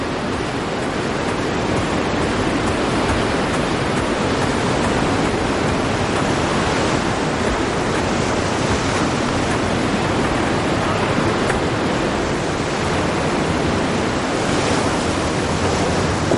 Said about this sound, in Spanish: Antonio camina hacia la playa buscando a su mujer